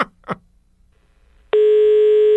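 A telephone line tone sounds as a call is placed. A couple of short faint blips come first, then a loud, steady, unbroken tone holds to the end.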